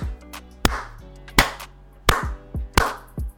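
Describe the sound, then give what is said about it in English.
Hand claps imitate the dutiful clapping at a school award ceremony for top students: slow, sharp, unevenly spaced claps, each ringing briefly, with quieter taps between them and no voices. “and clapping for people pretty much continuously”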